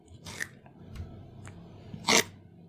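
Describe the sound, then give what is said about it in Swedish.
Crunchy bites into a raw carrot: two crisp, brittle crunches, the second louder, separated by faint small clicks in an otherwise quiet clip. “Kamel äter morot.”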